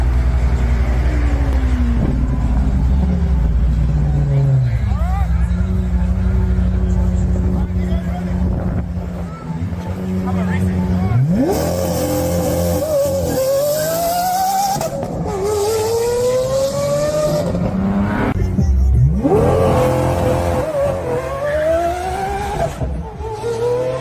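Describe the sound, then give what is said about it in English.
A Tesla Cybertruck and a Lamborghini drag race, the Lamborghini's engine accelerating hard with poorly timed shifts; its loud note climbs repeatedly in pitch through gear changes over a steady roar. “No, I meant a drag race. Oh, okay, let's check it out.”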